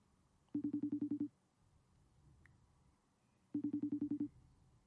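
Phone call ringing before going to voicemail: two faint bursts of ringback tone, each a rapid warbling pulse train under a second long, separated by a few seconds of near-silence.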